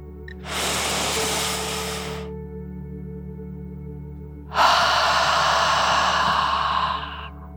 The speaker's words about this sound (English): as you take one more deep dragon breath, in and out.